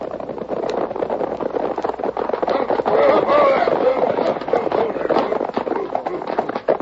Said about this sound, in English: It was an hour later when the three outlaws, headed by Jake, rode into Dalton with Betty and the other passenger from the coach.